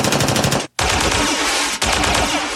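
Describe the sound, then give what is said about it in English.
Machine gun fire as a sound effect: rapid, evenly spaced shots in a loud burst, then a brief silence before dense, sustained gunfire resumes with another short dip near the end. “And because you liked that machine gun so much last time, I threw it in there for you this time.”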